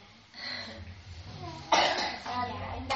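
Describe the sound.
A child coughs in a few short, harsh bursts, one sharp cough standing out near the middle, amid ongoing voices.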